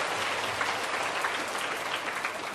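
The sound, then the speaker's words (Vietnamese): Schoolchildren applaud during their teacher's talk about parents, a dense and steady patter of many small hands clapping at an even level throughout. “Cô rất hạnh phúc khi nhắc đến cha mẹ mà các em lại vỗ tay.”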